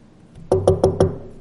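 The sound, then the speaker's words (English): Knocking on a door: four sharp, evenly spaced knocks in quick succession, loud and alone. “Boy, I wish somebody would answer that door.”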